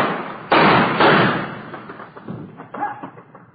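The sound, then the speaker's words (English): A handgun thrown onto the ground by a surrendering suspect at night: two loud, dull thuds close together, followed by fainter scuffing and shuffling noises. “throw your gun out ahead of you. He's not going to throw that gun out, Joe.”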